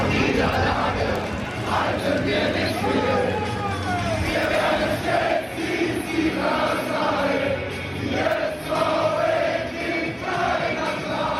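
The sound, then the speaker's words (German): Football fans sing together in a small stadium stand just before kickoff of SV Elversberg against Preußen Münster in the second Bundesliga. A dense, continuous chant of many voices fills the whole stretch. “Die SV Elversberg empfängt Preußen Münster, klingt in der kleinen, kuscheligen Kurve kurz vor Anpfiff so.”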